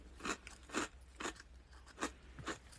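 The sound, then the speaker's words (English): Crisp crunches as someone bites and chews a fortune cookie: several quiet, dry bursts at uneven intervals, with no other sound. “Sorry, it's just a fortune cookie. I can't help it.”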